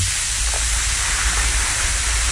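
Pastries frying in hot oil at a pastry shop: a loud, dense sizzling hiss that holds steady from start to finish, with no voices.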